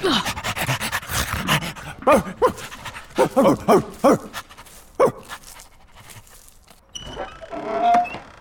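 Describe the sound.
A dog pants in a video game, with rapid, rhythmic, breathy huffs and a few sharper vocal bursts, fairly loud throughout before a brief quieter stretch near the end.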